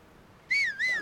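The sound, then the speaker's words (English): Two short, clear whistled notes used to call a horse in a video game. Each bright tone arches upward and then slides down, the second following closely after the first, alone over a quiet background. “Oh, so down. Down is whistle for horse.”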